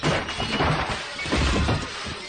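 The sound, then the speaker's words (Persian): A glass door of a jewelry shop is smashed, giving a loud, dense crashing burst that fills the short moment with harsh noise. “داوود میزنه شیشه در جواهر فروشی رو میشکنه.”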